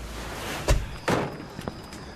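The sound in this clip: A door released from someone's hand and swinging shut, landing as two heavy thuds close together and then a fainter knock, over a low steady hum.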